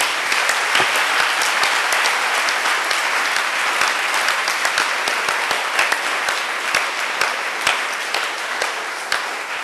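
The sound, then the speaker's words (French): Sustained applause from a church audience clapping for the Lord, a dense, steady patter of many hands at an even loudness throughout. “Let's clap for the Lord. Remercions le Seigneur pour ce voyage qu'il nous a permis de faire à travers ce livre. Clap for the Lord.”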